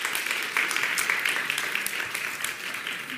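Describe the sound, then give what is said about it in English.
A church audience applauds to welcome new members, with dense, even clapping throughout and no voice standing out. “We're excited to welcome the Costers this evening, so give the Costers a hand.”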